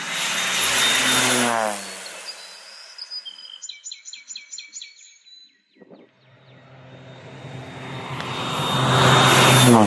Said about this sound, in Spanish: Ya viene la avioneta que hace ya 10 minutos está pasando. Esta es la tercera pasada que va a hacer.